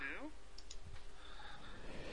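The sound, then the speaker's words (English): A computer mouse clicks on a donate button: brief, soft clicks set against a busy, uneven background. “I shall click donate now.”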